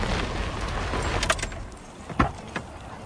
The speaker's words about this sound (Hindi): car अस्पताल के gate के अंदर जा रही है